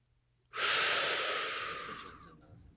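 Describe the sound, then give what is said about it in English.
A single deep inhaled breath, loud and breathy, rises sharply and then slowly tapers off, heard alone without talk. “as we always do in these hot breath episodes, and that is by inhaling a hot breath.”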